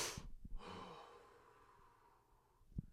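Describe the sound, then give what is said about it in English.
A single deep breath, drawn in and let out like a sigh by someone pausing after a long stretch of talking. It is soft and stands alone, with a faint click near the end. “Deep breath, because I've been talking a lot.”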